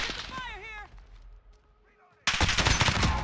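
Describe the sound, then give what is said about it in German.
Video game gunfire bursts out abruptly after a voice and a brief lull, a loud, rapid stream of automatic shots that continues to the end. “Ja, mehr als drauf schießen kann ich noch nicht.”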